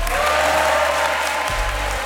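An audience applauds in the wedding room of Saint-Denis town hall, with brief, dense, steady clapping.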